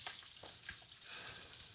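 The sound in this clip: Bacon frying in a pan gives a steady, crackling sizzle: a dense hiss dotted with small pops that runs on without a break, with no voices.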